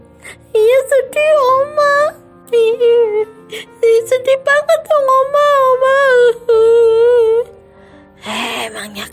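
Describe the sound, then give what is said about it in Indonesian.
A child crying, with loud, long, wavering wails and sobs that rise and fall in pitch. Brief breaks for breath come between them, and the crying runs almost the whole way through. “Aduh, masih aja nangis. Sedih banget ya.”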